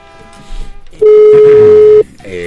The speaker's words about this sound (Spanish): ya está timbrando, ya entró la llamada